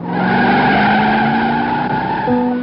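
A car skids with its tyres squealing in one loud, sustained, tonal screech that holds steady for the whole moment.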